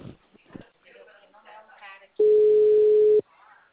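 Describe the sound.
A telephone dial tone sounds while a call is being placed. After a stretch of speech, one steady, loud, unbroken tone holds for about a second and then cuts off sharply.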